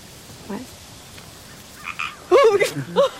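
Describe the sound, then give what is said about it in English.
A small frog croaks a few times in short, raspy bursts, faint at first and louder toward the end, with no voices present. “Ivy's hand, and places a small frog in it”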